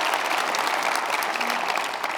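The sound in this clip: An audience breaks into applause, a steady, dense wash of many hands clapping that holds at an even level throughout with no voices standing out.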